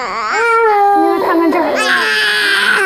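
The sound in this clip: An infant cries loudly and without a break, in wavering, high-pitched wails with a few whimpering catches between them.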